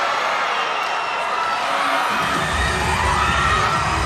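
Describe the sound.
A crowd cheers for the Chinese team at a sports event, a dense continuous roar of shouting voices that swells in the second half with a deeper rumble underneath.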